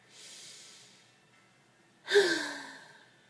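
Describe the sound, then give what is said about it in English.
Deep breathing by a frustrated person trying to calm down: a soft, airy breath, a short pause, then a louder, partly voiced sighing exhale that trails off. “Just breathe.”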